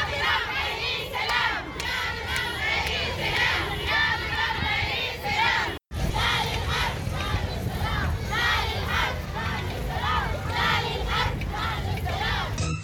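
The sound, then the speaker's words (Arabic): A crowd of women chants slogans at a peaceful march in Nyala, Sudan, calling for an end to the war; loud massed voices keep up a steady rhythmic chant, broken by one brief cut near the middle. “النساء اليوم الخميس في نيالة موكبا سلميا للمطالبة بوقف الحرب وإحلال السلام، ورفعت المشاركات في الموكب لافتات تدعو الإدارة الأمريكية للتدخل من أجل وقف الحرب الدائرة، ورددت المشاركات هتافات”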